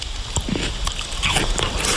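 Crisp bites into a piece of unripe Lidice pear, with a few crunchy, juicy snaps over a steady background hiss.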